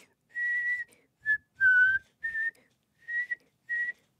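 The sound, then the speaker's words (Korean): A person whistles slowly while practising: six separate high, fairly steady notes of uneven length with short gaps between them. The whistling is quiet and clear, with no talking. “휘파람과 윙크를 둘 다 마스터하고 싶으면 둘 다 이렇게 동시에 연습해보세요. 아주 천천히”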